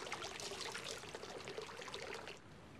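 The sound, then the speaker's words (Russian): Bath water sloshing and streaming as a person sinks into it, a steady faint watery rush that continues for most of the time, then drops to a softer trickle near the end. “Отложив книгу, погружается в воду.”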